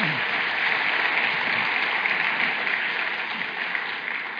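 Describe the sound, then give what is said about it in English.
An audience applauds children after a body-part naming game at a kids' event, a steady, even wash of clapping that holds throughout and eases slightly at the end. “Hey, great job. Give the kids a hand.”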